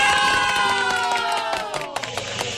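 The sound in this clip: A cheering crowd sound effect plays on a radio show: a loud, steady roar of shouting voices with a whistle-like pitch gliding downward and a few sharp claps or hits toward the end.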